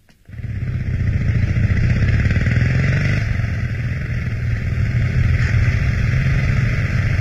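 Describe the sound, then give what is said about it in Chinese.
A motorcycle carrying two passengers starts up and rides off. The engine quickly rises to a loud, steady, rough drone with some clatter, sustained throughout. “摩托车载着田海、周达，驶往上海北区的一座幽静典雅的饭店。”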